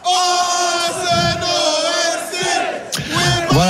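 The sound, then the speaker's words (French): Arsenal fans chanting loudly in London streets while celebrating the league title, a massed crowd of voices singing at full volume in a sustained, tuneful chant, with a few louder shouts near the end. “c'est ce chant d'Arsenal à tue-tête et à tue-tête hier dans les rues de Londres.”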